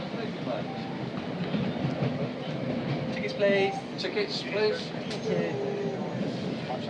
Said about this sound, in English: I just want to get a little bit of the sound of the train.